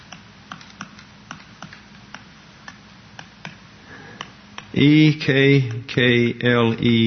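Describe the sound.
Keys on a computer keyboard tap in sparse, evenly spaced clicks, then a voice starts speaking over the last few taps.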